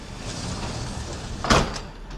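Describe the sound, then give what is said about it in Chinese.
A train compartment's sliding door opens with one short, loud rolling swish that rises briefly out of a steady low rumble, then fades back into it. “包厢的推拉门开了，最小的那个红头发的男孩走了进来。”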